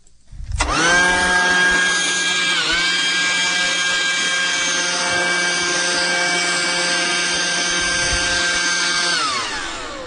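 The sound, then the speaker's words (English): A leaf blower clearing sawdust after sandpaper sanding starts up with a whining rush and holds a loud, steady, harmonic-rich roar with a brief dip. It then winds down with falling pitch near the end. “That was a leaf blower. Sanding with sandpaper and blowing off the sawdust.”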